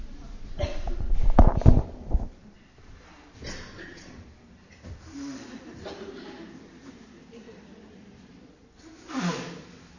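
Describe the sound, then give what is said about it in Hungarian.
Someone blows their nose during an allergy flare-up: a loud, noisy honking burst comes early, then quieter talk and a softer breathy snort near the end. “Most egy intermedzó következik. Kifújom az orrom.”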